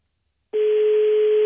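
A telephone ringing tone sounds while a call is being placed: one steady, mid-pitched electronic tone starts abruptly after a short silence and holds at an even loudness for about a second.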